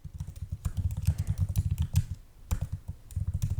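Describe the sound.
Rapid typing on a computer keyboard, many quick clicking keystrokes in busy bursts with a brief pause partway through.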